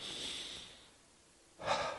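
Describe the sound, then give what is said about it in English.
A slow, deep breath: a soft, airy draw of breath fades into a short hush, then a stronger, rougher rush of air. Both are quiet and heard on their own. “So at least for a moment, I invite you to take a breath”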